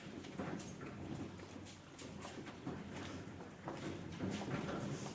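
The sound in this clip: A horse-drawn carriage passes, its hooves clip-clopping faintly in a steady, uneven rhythm over low background noise.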